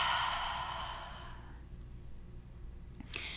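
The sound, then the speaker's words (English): A deep lower-belly breath is heard as a long, soft, airy exhale that starts full and gradually fades away to near quiet. “Begin with a lower belly breath. In fact, let's just take one together. Inhale deeply, lower belly expands. Exhale completely, let it go.”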